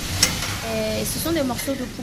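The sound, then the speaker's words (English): Pieces of chicken marinated in garlic, vinegar and soy sauce sear on a hot stove in a restaurant kitchen. The sizzle is a steady, bright hiss with a few soft stirring sounds. “He takes pieces of marinated chicken and sears them on a hot stove.”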